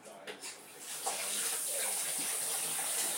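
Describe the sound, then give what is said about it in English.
Water runs from a tap while hands are washed beneath it, making a faint, steady rushing hiss that builds slightly after the first second and holds evenly to the end. “I'm just going to wash my hands”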